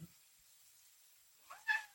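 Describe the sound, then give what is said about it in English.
A cat gives a single short meow, asking to be let out, faint and alone after a brief silence. “the feline wants out”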